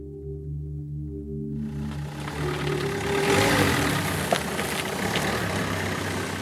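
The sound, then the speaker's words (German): A livestock farmer's vehicle engine drives toward his grazing animals by the Szczecin Lagoon on the German-Polish border. A low, steady engine drone is joined by a broad rushing noise that swells and then holds steady. “Am Stettiner Hafen an der deutsch-polnischen Grenze fährt ein Viehzüchter zu seinen Tieren.”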